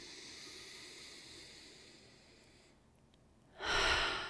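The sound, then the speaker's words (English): A deep breath: a loud airy rush of breath near the end, following a stretch of quieter, steady hiss. “I just want to take a deep breath with that for a moment.”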